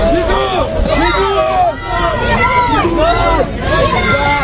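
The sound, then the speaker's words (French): Turkish supporters greet the French national football team as it arrives at its hotel, a loud crowd of voices chanting and shouting continuously in ragged, overlapping waves. “écoutez l'arrivée du quart de l'équipe de France à l'hôtel, accueilli par des supporters turcs.”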